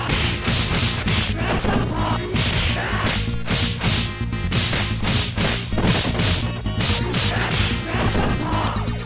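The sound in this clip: Whip-like strikes and crashing hits of a special attack move from the Streets of Rage beat-'em-up on the Mega Drive: many sharp, punchy impacts and swishes packed densely over loud game music for the whole stretch.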